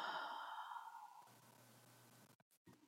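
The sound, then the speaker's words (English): A deep exhale during a guided breathing exercise: one long, soft, breathy sigh that starts with a faint voiced tone and trails off into quiet breath noise. “And exhale. And again, deep breath in. And exhale.”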